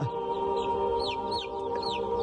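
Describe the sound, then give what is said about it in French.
A toy rooster in a pen game with corn kernels makes electronic clucking: a few quick, high, falling chirps over a steady tonal hum, with no talk. “Je jette mon coq dans l'enclos. Ah Mais mange, coq, mange.”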